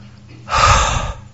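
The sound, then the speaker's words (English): A single exhaled breath: one brief, breathy rush of air that swells quickly and fades within about half a second, fairly loud and alone. “Can you hear the breath? Makes a sound.”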